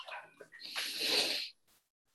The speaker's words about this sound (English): would everybody take a deep breath